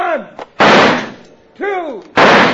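Gunshots fired at bottles thrown into the air: two loud, sharp blasts with fading noisy tails, separated by short vocal sounds and a faint click.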